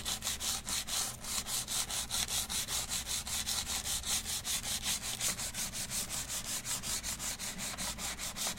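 Hand sanding of a wood surface being roughened up by feel, done without regular sandpaper: many brisk back-and-forth scraping strokes in a steady, even rhythm of about three per second, each a bright hissing rasp.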